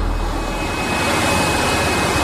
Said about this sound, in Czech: jezdí vysavač. A co vysává vysavač teda? Vysavač vysává to, co my jsme teď umývali.